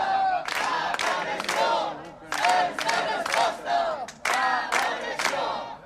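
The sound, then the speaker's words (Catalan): Crowd of over fifty protesters chanting in unison at a rally in front of a town hall against homophobic and racist attacks; loud shouted chant phrases repeat in steady rhythmic bursts, broken by brief pauses. “El que sentiu és la concentració que va reunir ahir més de mig centenar de persones davant l'Ajuntament de Santa Maria.”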